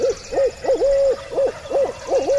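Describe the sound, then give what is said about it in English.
A person imitates a barred owl's hoot through cupped hands, giving a rhythmic run of short, mid-pitched hoots in the bird's cadence, clear and steady without other sounds. “He cups his hands around his mouth and hoots a perfect "Who cooks for you all" of the barred owl.”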